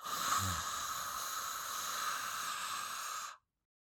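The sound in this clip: A person makes an ocean-like breathing sound by narrowing the throat: one long, continuous, breathy hiss. It holds steady for just over three seconds and then stops, with no talking over it.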